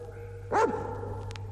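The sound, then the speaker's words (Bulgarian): A mastiff, a very large dog breed, gives a single short bark that is fairly quiet and sits over a steady low hum. “То принадлежи към породата на мастифите. Това са най-големите кучета на света.”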